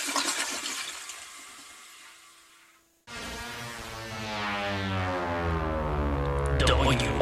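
A toilet flush: a rushing of water fades away, then after a brief moment of silence a fresh surge of water swells and gurgles, growing louder through to the end.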